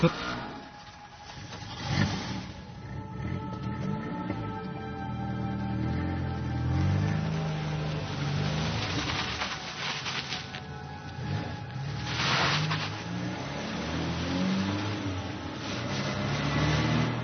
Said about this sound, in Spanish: Tan solo el viejo camión con la puerta abierta. Tengo que arrancarlo como sea. Por favor, arranca. ¡Arranca!